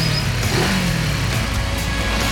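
A car engine revs and accelerates in a loud, steady roar, a dense mechanical growl that stays strong across the whole short stretch.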